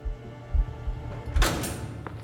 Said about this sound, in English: His entourage of guards took him through one last secure door. Stephen steeled himself as it swung open.